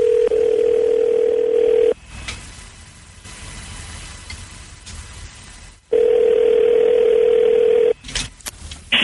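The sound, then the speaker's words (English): A telephone dial tone, heard while placing an international call, hums steady and loud for about two seconds, drops away to faint background noise, then returns for another two seconds before cutting off. “Yeah, well, I didn't dial. I don't think I dialed the 011 thing. Do I have to dial it before or after?”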